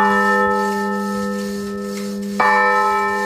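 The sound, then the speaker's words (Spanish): A repaired church bell rings in the village church of Granyena de Segarra, silent 85 years after cracking in the cold and since restored by an Austrian firm with a new wooden yoke. A sustained, humming tone lingers, then one fresh strike sounds loudly near the end. “ranyena de Segarra, la campana de l'església de Santa Maria torna a sonar després de 85 anys de silenci.”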